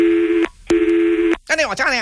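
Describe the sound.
Telephone tones as a call is transferred: two steady, buzzy electronic tones of the same pitch, each about half a second long with a short gap between them, followed by a brief voice.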